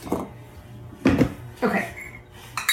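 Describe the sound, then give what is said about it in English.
A few scattered clinks and scrapes of a measuring spoon against a bowl as a tablespoon of sugar is added to flour for biscuits, short bright taps with quiet gaps between them. “And then we are going to add to that a little bit of sugar. So just one tablespoon.”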